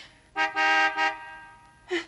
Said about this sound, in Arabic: هي ذي سيارة والدي.